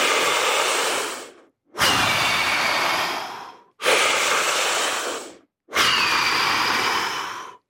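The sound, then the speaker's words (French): Strong, deep breathing exercise done by filling and emptying the lungs completely: four long, forceful breaths, each a loud rushing airflow, separated by brief silent pauses. “Ça fait des respirations très fortes.”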